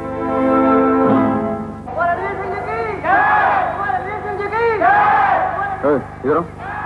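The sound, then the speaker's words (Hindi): A crowd chants slogans in loud, tonal shouted phrases. A long held cry opens the chant, then it breaks into rhythmic bursts of massed voices with short gaps between them. “ये किसके नाम के नारे लग रहे हैं?”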